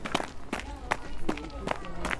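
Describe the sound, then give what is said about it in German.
A girl runs around in front of a bakery, her quick, irregular footsteps patting along while voices are heard in the background. “Was ist denn da los, Lea? Warum rennt deine Tochter rum vor dem Bäcker?”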